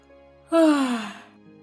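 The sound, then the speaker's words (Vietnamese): A sleepy man gives a single yawn, a short voiced breath of under a second whose tone slides steadily downward before fading out, heard alone against near silence. “Một gã díu mắt lại vì buồn ngủ ngáp một cái rồi đáp.”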